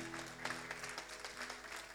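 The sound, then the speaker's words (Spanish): Congregation applause during a church service: a fairly faint, even patter of many hands clapping, with a low steady drone underneath and no voices. “Le damos un aplauso al Señor.”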